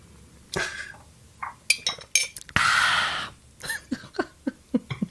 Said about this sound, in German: Ich trinke einen Schluck, liebe Hörwesen. Und da wir uns dazu entschieden haben, diese Folge so gut wie nicht zu schneiden im Fragenteil, werdet ihr das jetzt leider hören.